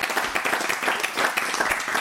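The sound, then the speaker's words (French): Applause from a small group welcoming someone to a table, brisk dense clapping that stays steady for about two seconds. “On peut l'applaudir.”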